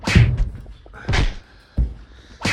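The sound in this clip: A cupboard door is opened and shut in a home as someone searches it. A few dull wooden knocks and thuds are spaced apart, with quiet pauses between them.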